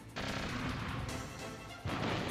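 Explosive gunfire and blasts from a boss firing missiles in the Metal Gear Solid Integral video game, a dense continuous roar of bursts with a fresh surge near the end.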